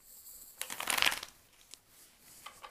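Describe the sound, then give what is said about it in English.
Playing cards are shuffled by hand in a brief riffling burst of crisp, dense clicks lasting under a second. A few fainter, softer card sounds follow, all fairly quiet with no talk. “shuffling the cards, at least the way I shuffle them.”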